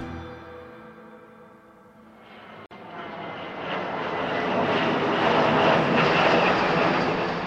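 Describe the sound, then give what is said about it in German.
A private jet in flight, its engine roar quiet at first, then swelling from about two seconds in to a loud, broad, sustained rumble that holds to the end. “Am 20. Juli fliegen Diana und ihre Söhne mit dem Privatjet von Mohammed Al-Fayed aus ihrem Saint-Tropez-Urlaub zurück nach London.”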